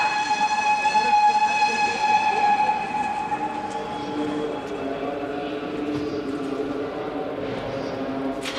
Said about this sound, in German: Ich stehe auf dem Bahnsteig.